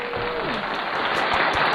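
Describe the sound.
A studio audience claps for a guest, a local producer and director, with continuous dense applause that grows slightly louder toward the end.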